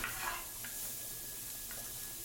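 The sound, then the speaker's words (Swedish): Butter melts and sizzles softly in a pan before going into waffle batter. A faint, steady hiss of gentle frying runs throughout, even and unbroken, with no voices. “Och när du smälter smöret så vill man liksom inte att smöret ska koka utan man vill att det ska i lugn och en harmonisk liksom flow ska liksom få smälta innan du går ner med smöret i smeten.”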